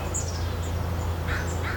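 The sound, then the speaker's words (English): Outdoor ambience of an urban forest north of Seattle: a few faint bird calls ring out over a steady, low background rumble. “This is the sound of carbon credits being made at an urban forest north of Seattle.”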